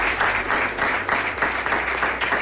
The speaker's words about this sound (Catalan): Un aplaudiment de les persones presents, entre ells part de la plantilla del Real Mallorca